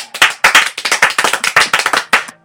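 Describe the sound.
Audience clapping on cue from a raised applause sign at a show, many sharp, quick claps in an uneven rhythm that run for about two seconds and then stop.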